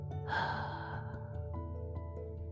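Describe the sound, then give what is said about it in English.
A deep breath in and out during a guided breathing exercise, heard as a single breathy rush that fades gently, set over steady sustained musical tones. “Let us take a deep breath in and a deep breath out.”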